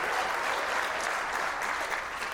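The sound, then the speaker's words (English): Applause from a church audience cheering for Bethel Church of Redding, California: dense, steady clapping that holds at an even level for the whole stretch, with no voices standing out. “Give it up for Bethel real quick. Come on.”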